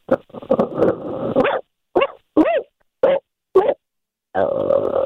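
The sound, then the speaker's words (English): A man imitates a dog: first a run of rough barks and growls, then several short, separate yelping barks with gaps between them, ending in a longer growling bark. “what animal can you make a noise of? Canine counts, right?”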